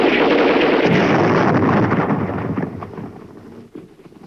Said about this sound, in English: Now Rodriguez tugs the pin from a grenade. Pressing himself flat behind the log, he hurls it blindly.